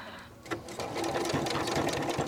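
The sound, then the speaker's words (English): A beginner's sewing machine stitches in a rapid, even mechanical chatter. The run starts after a short quiet lead-in and holds steady and fairly loud, with no voices. “I'm learning how to sew. I'm still a beginner. I'm learning about the proper way to cut, the proper way to sew.”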